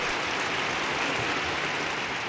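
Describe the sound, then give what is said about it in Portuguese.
Applause, a dense and even wash of clapping that holds at a steady level from start to finish with no talk over it. “Nós merecemos palmas, né? Palmas para nós. Mais.”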